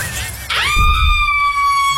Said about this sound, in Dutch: Iets zwaars valt op de auto.